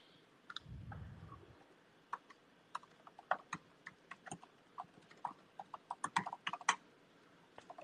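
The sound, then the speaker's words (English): Someone writing something down, a faint run of quick, irregular sharp clicks and taps that grows busier toward the end. “Uh, actually, I gotta write this down.”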